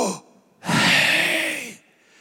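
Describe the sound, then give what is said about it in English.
A person breathes in and out to pronounce the Hebrew divine name: a short breathy sound, a pause, then a long, loud, airy exhale with a faint voiced tone, heard alone without speech. “so the only way to really pronounce it is to inhale and exhale. It's like,”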